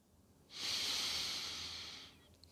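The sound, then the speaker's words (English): A single slow, deep inhale during breathing meditation: a soft, airy, hissing breath that swells in and holds steady for about a second and a half before fading, heard alone and quietly. “And when your mind wanders, simply bring it back to the breath. Inhale.”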